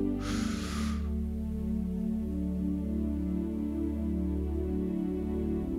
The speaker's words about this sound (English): Just breathe in and hold it there.